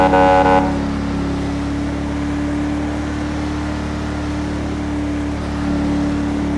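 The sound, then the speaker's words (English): A police cruiser's car horn in a video game, sounding like an ordinary civilian horn, gives one short, loud blast before a steady engine drone carries on alone. “Oh wow, the horn sounds more like a civilian horn.”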